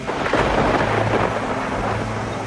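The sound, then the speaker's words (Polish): A violent thunderstorm: heavy rain pours in a dense, continuous hiss while deep thunder rumbles and rolls underneath, loud and unbroken throughout. “Burza wyjątkowo gwałtowna szalała do wieczora.”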